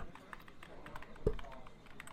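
A laptop keyboard is typed on in a diner, with a quick, steady patter of faint key clicks and one louder tap midway.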